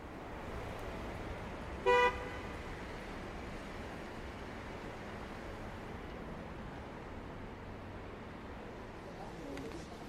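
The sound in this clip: A car driving, with a steady, even road and engine rumble throughout and one short horn toot near the start.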